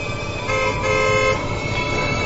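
A car horn blares in loud, sustained, harmonic tones on a road, rising slightly in strength through the middle before holding steady over constant engine and traffic noise.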